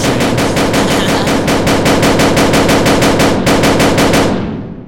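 Video game gunfire empties a gun's magazine in one loud, rapid, evenly spaced burst of many shots that runs for several seconds before stopping.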